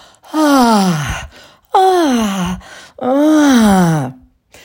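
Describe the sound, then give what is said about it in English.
Open-mouth moaning from a single voice, demonstrated as sexual vocal sounds: three long, loud moans in a row, each sliding downward in pitch, with short silent pauses between them. “and also open mouth sounds like”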